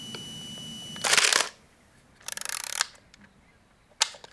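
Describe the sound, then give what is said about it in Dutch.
Camera shutter clicking in three separate bursts with quiet gaps between: the second is a rapid rattling series, and the last is a single short click. “Klik, klik. Het geluid van een camera.”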